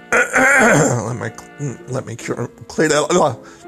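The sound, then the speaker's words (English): A man clears his throat in the morning with loud, voiced, groaning rasps in a few separate bursts, one long rumble followed by shorter ones. “Let me clear my old man throat this morning.”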